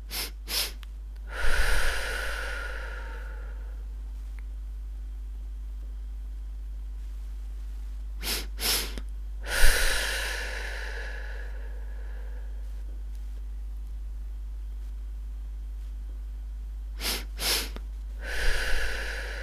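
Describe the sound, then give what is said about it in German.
Breathing exercise: two short sniffing inhales through the nose followed by one long, airy exhale through the mouth. The pattern repeats three times with quiet pauses between. “Zweimal kurz einatmen durch die Nase, einmal lang ausatmen über den Mund. Und zwar so.”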